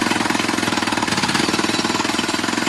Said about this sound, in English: This is the sound of a jackhammer.